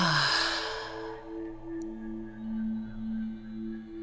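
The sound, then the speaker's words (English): A slow, deep breath out through the mouth makes a soft, breathy whoosh at the start and then fades. Calm, sustained musical tones continue quietly underneath. “Take a deep breath in through the nose and then out through the mouth.”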